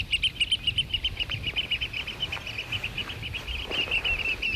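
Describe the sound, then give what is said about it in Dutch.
Oystercatchers fly overhead, giving a rapid run of shrill, high piping calls that pulse in a steady rhythm over a low background rumble. “Zijn de auto's nog niet uit of de eerste 2, 3 schoolexers vliegen al over ons hoofd?”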